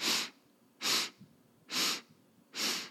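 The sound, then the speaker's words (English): Four sharp, evenly spaced sniffing inhales through the nose form a four-beat pulse breath. Each is a brief, breathy rush with quiet pauses between. “So today we're going to use what we call the pulse breath. And it is a 4-beat breath. So 4 inhales in through the nose.”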